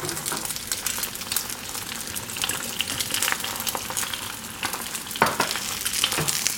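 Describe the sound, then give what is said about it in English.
Eggs fry in a pan of hot oil as more hot oil is drizzled over the whites, giving a constant crackling sizzle with frequent sharp spattering pops and no talking. “I wanna speed up the cooking of the egg whites by drizzling them with a little bit of this hot oil in the pan.”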